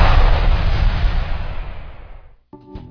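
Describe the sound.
A heavy firecracker burst from a Diwali fireworks advert roars loudly and slowly fades over about two seconds, followed by a short tonal musical jingle.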